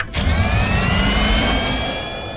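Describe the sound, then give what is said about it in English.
Turbo booster engine revving: a loud, dense roar that starts abruptly, carries a faint whine climbing gradually in pitch, and eases slightly near the end. “They pushed the turbo booster! We're really moving now!”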